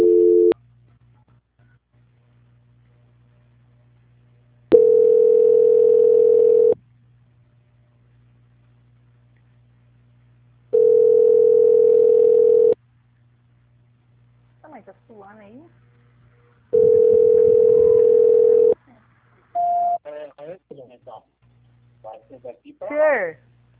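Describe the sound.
Ringing tone on a telephone line while a call is transferred: a cut-off tone opens, then three long steady beeps repeat at regular intervals over a low hum, followed by a woman talking.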